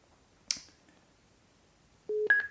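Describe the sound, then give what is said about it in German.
Telephone tones as a call is placed to a travel agency: a sharp click, then after a pause two short steady electronic beeps, the second higher in pitch. “gehen jetzt ins TUI-Reisebüro König und wollen jetzt mal den Christian anrufen und mal horchen.”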